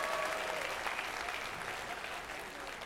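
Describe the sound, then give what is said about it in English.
Applause from an audience clapping their hands, a dense, steady patter of many claps that holds strong throughout and eases off only slightly toward the end. “Everybody clap your hands. Give God the glory.”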